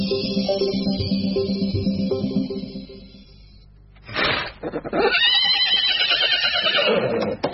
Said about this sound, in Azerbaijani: Qarabağ atı ümumən hündürlüyü 150 santimetrə çatan, hündürlüyü də hündürlüyünə çap uzunu bərabər olan, oynaq, acılığa, susuluğa dözümlü bir cinsdir.